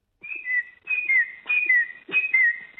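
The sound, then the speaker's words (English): A person whistles an imitation of a noisy miner bird call, four clear, high phrases in a steady rhythm, each a held tone that dips slightly lower partway through, alone with no talk. “I think what you're hearing is the noisy miner. They do have that first call you did is something they do more often”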